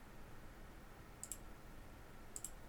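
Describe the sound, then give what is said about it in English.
Computer mouse clicking: two faint, sharp click pairs well apart over a low steady hiss. “I'm just sitting here clicking, just trying to see if I can get a different angle of it.”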